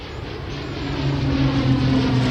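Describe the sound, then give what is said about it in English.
Steady propeller aircraft engine drone with a low, even hum that grows slightly louder as the plane flies past. “Oh, it's a propeller job. It's very nice. Full propeller job, the workhorse there, carrier.”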